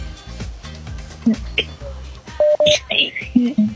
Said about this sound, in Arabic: كمان اتصال. ألو راديو حلمنا.